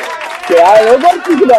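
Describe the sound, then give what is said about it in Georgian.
Recorded applause, a steady patter of clapping that runs throughout, with a loud, tonal voice shouting over it from about a third of the way in. “გილოცავთ, გილოცავთ აპლოდისმენტები ჩვენი. ჩვენი გუნდისგან ჩაწერილი აპლოდისმენტები.”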